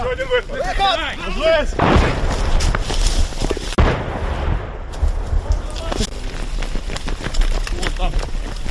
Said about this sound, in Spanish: Este es el sonido de la zona del Donbass, en el este de Ucrania. Sonido de uno de los muchos combates que se han producido en los últimos años.